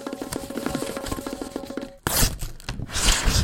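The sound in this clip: Paper envelope torn open after a stretch of music, a burst of dry, ripping, crackling tears that dominates the second half and fills out loudly across the range.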